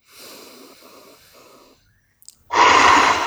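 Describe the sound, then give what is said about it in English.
A deep breath taken during a guided self-reflection exercise: a drawn-out, breathy inhale, a short quiet pause with a couple of tiny clicks, then a loud, forceful rushing exhale. “Deep breath.”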